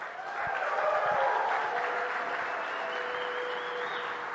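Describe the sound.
Applause from a church audience welcoming a speaker, a steady, fairly soft wash of clapping that holds level throughout.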